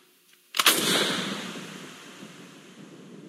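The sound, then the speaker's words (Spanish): A single gunshot sound effect, exaggerated and very loud, bursts out sharply and then fades in a long, rumbling, noisy tail that lasts several seconds. “En el sueño, el estruendo exagerado del disparo lo despertó.”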